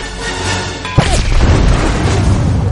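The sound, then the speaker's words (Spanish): Acetylene welding gas cylinders explode inside a steel-beam structure: a sudden loud crash, followed by a sustained rumbling, roaring blast that stays loud to the end. “La explosión de las bombonas asciende entre las vigas de la estructura metálica.”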